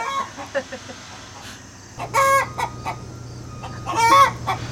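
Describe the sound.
A hen clucks and cackles, apparently just after laying an egg. Two loud bursts of squawking calls stand out among softer scattered clucks, over a steady low hum.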